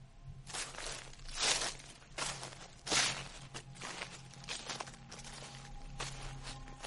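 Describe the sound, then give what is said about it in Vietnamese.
Faint, rustling footsteps of shoes walking on grass in a dark forest: a steady run of soft swishing steps, with two noticeably louder crunching strides among them. “Chỉ nghe tiếng giày đi trên cỏ loạt xà loạt xoạt.”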